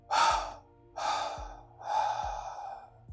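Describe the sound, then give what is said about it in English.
Three forceful exhales through the mouth during a breathing exercise for stress relief, each a breathy rush with a soft low rasp, separated by short pauses and fairly loud. No talking. “First inhale with me. Little hold. Triple exhale through the mouth.”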